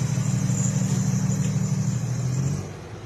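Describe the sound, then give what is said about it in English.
Car engine running as the vehicle is moved: a low, steady humming drone with a faint higher whine above it, holding level before dropping quieter near the end. “I have to move my vehicle.”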